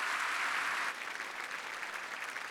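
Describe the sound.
Audience applause welcomes a guest speaker at a church gathering: dense, steady clapping that is fullest for the first second, then settles into an even, slightly softer patter.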